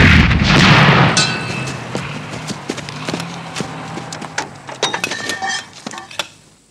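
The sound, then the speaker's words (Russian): Tank cannon fire: a loud, heavy booming blast at the start slowly fades and gives way to many sharp, scattered clattering clicks and knocks. “На противоположный берег быстро выезжает танк. Танки! Дуло пушки поворачивается вправо. Огонь!”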